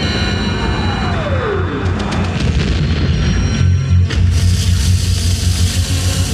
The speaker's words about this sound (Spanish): El barco se pone en marcha, iluminado por los fogonazos y las tracas de explosiones.